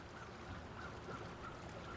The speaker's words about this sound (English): I'm at another river. This one flowing through a southwestern Ontario town on a clear but darkening springtime evening. I recorded these nature sounds well over a decade ago